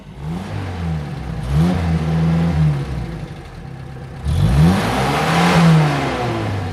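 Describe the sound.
Car engine rumbling past on a road: a steady mid-pitched motor roar that swells twice, its engine tone sliding in pitch as it goes by, with no talk over it.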